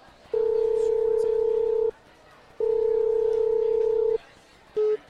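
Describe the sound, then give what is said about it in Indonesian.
A telephone call's ringing tone sounds as two long, steady tones separated by a pause, then the short start of a third tone, clear over faint background hiss. “Wait ya, aku coba telepon.”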